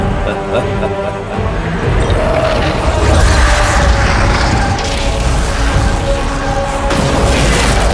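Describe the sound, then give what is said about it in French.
A booming bomb explosion in a video game battle aboard a gunship. A loud, sustained roar with heavy low rumble fills the whole stretch, and voices can be heard through it. “Une bombe ! Virez à bâbord !”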